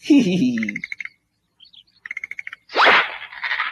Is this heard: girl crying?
no

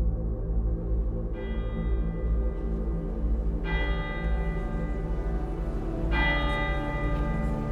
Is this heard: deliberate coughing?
no

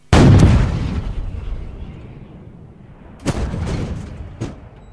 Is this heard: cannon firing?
yes

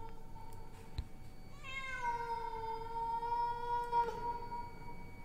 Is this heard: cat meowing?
yes

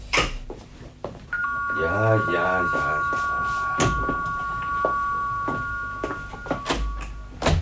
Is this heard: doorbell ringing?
yes

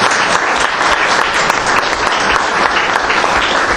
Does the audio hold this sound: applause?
yes

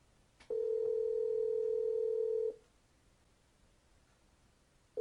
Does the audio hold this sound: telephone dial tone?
yes

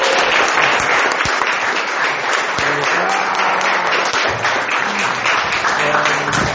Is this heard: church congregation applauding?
yes

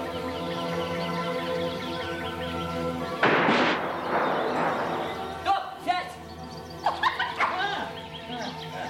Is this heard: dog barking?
yes

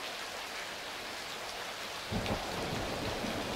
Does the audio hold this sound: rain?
yes

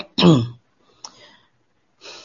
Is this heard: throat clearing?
yes

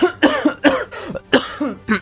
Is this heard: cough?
yes

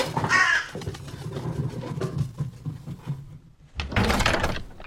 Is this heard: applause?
no

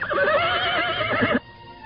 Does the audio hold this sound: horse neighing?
yes

